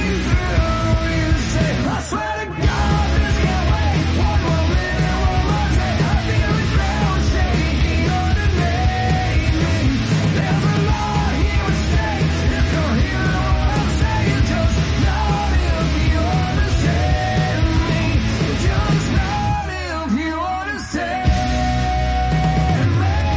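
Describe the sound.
A loud, dense rock song plays with driving full-band instrumentation and shouted vocals. It runs nearly unbroken, with brief drops in intensity near the start and again close to the end.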